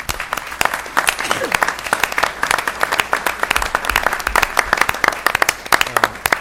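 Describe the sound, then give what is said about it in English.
An audience claps for three panel discussants at the close of a discussion event. Many distinct, crisp hand claps overlap in a brisk, uneven patter that holds at a steady, moderate level for about six seconds. “So I'd like just to invite a round of applause for our three discussants”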